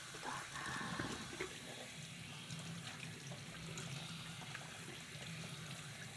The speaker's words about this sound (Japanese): ここの泡を洗い流してて、